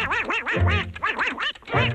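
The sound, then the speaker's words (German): Cartoon duck quacking in a raspy, garbled voice-style squawk, with several rapid warbling bursts running almost continuously over two seconds, loud and alone. “Ich habe hier die wahrscheinlich bekannteste Ente der Welt für euch.”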